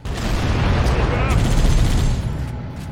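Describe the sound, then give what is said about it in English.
Sniper rifle gunfire in a video game during a fight with a hunter enemy: a dense, continuous roar of shots and booms that holds steady for most of the moment, then eases off near the end. “sniper. Yeah, the sniper took out a hunter.”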